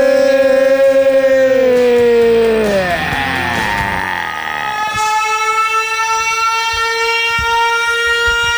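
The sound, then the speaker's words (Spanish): Siren-like wailing tones ring out, loud and continuous, with stacked harmonic lines that slide downward in pitch partway through, blur into a jumble, then settle into steady high, sustained tones. “Sirenas”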